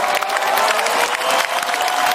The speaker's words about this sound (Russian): Чего ты хлопаешь, у тебя на столе ни хрена не стоит?